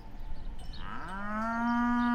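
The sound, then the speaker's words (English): Holstein dairy cows in pens give a loud, drawn-out moo that rises in pitch, then holds a steady, strongly harmonic tone to the end, over low background noise. “All you see is Holstein cows munching in stanchions and pens yawning out into the distance.”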